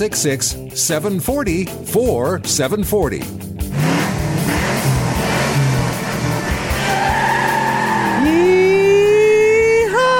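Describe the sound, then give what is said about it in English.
Car tires squeal and engines scream on the road outside, a loud, sustained roar of noise beneath a talking voice, with one engine note climbing steeply near the end. “There's a lot of noise outside right now. And it sounded like that. Tires are squealing. Tires are squealing. Engines are screaming.”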